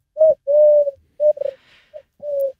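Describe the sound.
Soft, hollow cooing of a wood pigeon: a series of low, steady-pitched coo notes separated by short pauses, with one longer drawn-out note near the start and no other sounds.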